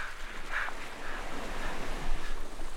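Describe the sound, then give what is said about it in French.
Ocean waves break on a sandy beach in a continuous, rushing wash of noise that swells slightly toward the end, with no voices. “Je vais aller marcher dans l'eau maintenant. Le sable me brûle la plante des pieds, je dois courir. Je cours vers l'océan.”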